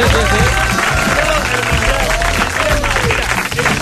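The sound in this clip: Applause at a press conference, a steady spread of clapping hands, with voices talking over it.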